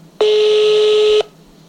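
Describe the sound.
Telephone tone as a call is placed: a single steady, loud electronic beep lasting about a second, starting and stopping abruptly.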